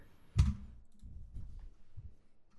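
A single faint computer mouse click, one sharp tick over a low, quiet background rumble.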